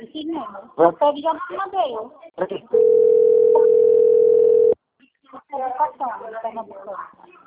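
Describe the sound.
An outgoing phone call's line tone sounds as one steady, unbroken tone of about two seconds. Talk comes before it and resumes right after it stops.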